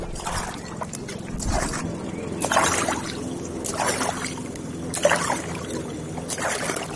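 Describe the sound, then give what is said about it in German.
Paddle strokes from a small boat on the Wakenitz river, soft regular splashes and swishes of water recurring roughly once a second, fairly quiet over a low background. “Lass uns noch mal ein Stück weiter paddeln.”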